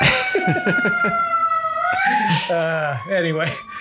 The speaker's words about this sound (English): sorry about the sirens going by. I'm probably picking that up